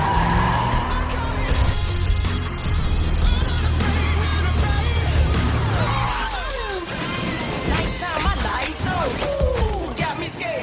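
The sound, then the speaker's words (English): A modified hearse roars along with a loud, sustained engine drone, then its tires squeal and skid in several sharp, gliding shrieks. “What did you do to my uncle's hearse? I fixed it. Man, this is so inappropriate for this vehicle.”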